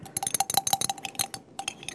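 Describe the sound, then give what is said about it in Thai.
A thickening agent stirred into a liquid cleansing mixture: many quick, irregular clinks and taps of a utensil against the container, fairly faint, with a brief pause partway through. “เดี๋ยวผมใส่ลงไปนะครับอาจารย์ลองคนดู”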